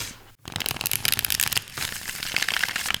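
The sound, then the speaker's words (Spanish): A deck of tarot cards is shuffled in a dense, continuous run of crisp, papery riffles and flicks at moderate loudness. There is a brief gap near the start and no talking. “Voy a empezar a mezclar las cartas y ver cuál es el mensaje que tienen para nosotros.”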